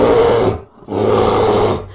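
A bear roars twice, each a long, loud, rough growling bellow lasting under a second, split by a brief pause.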